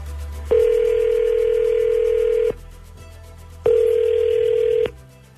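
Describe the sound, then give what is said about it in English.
A phone line rings out as a call is placed to a man, giving two long, steady humming ring tones, the first about two seconds and the second shorter, over a faint low hum. “Okay, I'm dialing him up now.”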